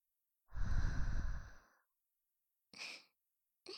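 A deep breath let out through the mouth: one long, breathy exhale of about a second, then shorter, quieter breath sounds after a pause, faint and without speech.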